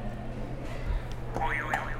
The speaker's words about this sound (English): Go ahead and hit another buzzer.